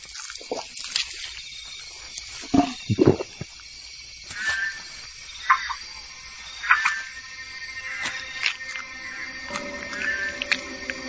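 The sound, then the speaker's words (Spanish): Croaks and chirps of a Pac-Man frog, a bulbous-mouthed frog calling at night near dawn, break out in irregular short bursts over a steady high insect-like hiss. “Su boca bulbosa le ha granjeado el apodo de Rana Pac-Man.”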